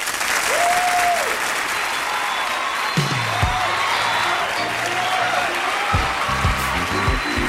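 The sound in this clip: An audience applauds to welcome the Jacksons at a show marking their tenth anniversary in show business. The clapping is loud, thick and unbroken throughout, with a few sustained musical tones entering partway through.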